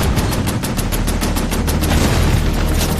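A Canadian tank opens fire in battle: a loud, rapid string of many sharp gunshot reports over a heavy low rumble, continuous for the whole stretch.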